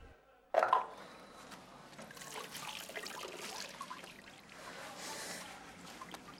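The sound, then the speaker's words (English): Water runs as someone washes at a small, skimpy sink. The low, uneven trickle starts abruptly with a brief splash and goes on with faint splashes throughout. “washes at a skimpy sink”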